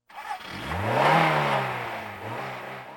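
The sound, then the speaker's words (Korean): A jeep engine parked in a yard starts up and revs hard, its pitch climbing to a loud peak and then easing into a steady rumble. “조합 사무실에서 도망친 경찰은 마당에 세워져 있던 지프차를 타고 시동을 걸었습니다.”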